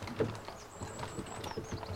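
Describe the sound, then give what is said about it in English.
A horse-drawn coach sets off down a dark, lonely road. Soft clip-clop hoofbeats blend with a low, steady rumble, and the whole sound stays quiet throughout. “And with that, the coach departs”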